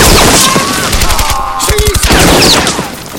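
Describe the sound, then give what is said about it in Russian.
Short bursts of submachine gun fire during a wartime gun battle in a forest, rapid cracking reports that keep coming in quick clusters throughout, loud and dense with no pause. “Старшина берет следующий автомат. Точными короткими очередями поражает двух немцев.”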